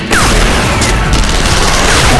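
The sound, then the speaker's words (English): Rockets exploding in battle mingle with heavy gunfire in a dense, loud, unbroken roar of blasts and crackling shots that fills the whole clip without any talk. “Shit! They're using rockets.”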